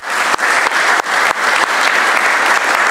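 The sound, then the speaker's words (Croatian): Croatian government members applaud during a cabinet session, a loud, dense round of clapping broken by a few brief dips in level early on, then continuing steadily for about three seconds. “Evo, ja mislim da Marija zaslužuje jedan aplauz cijele vlade.”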